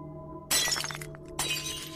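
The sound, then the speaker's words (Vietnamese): A flower vase falls to the ground and shatters: a bright burst of breaking glass, then a second, smaller crash of scattering shards, with no voices. “Cái bình hoa đột nhiên đổ nhào xuống đất, vỡ tan tành.”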